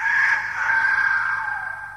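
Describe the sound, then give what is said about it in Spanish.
A rooster gives a single loud, drawn-out crow at dawn, lasting about two seconds. The crow holds a bright, steady tone, then sags slightly and fades at the end, with no other voices. “Al primer canto del gallo”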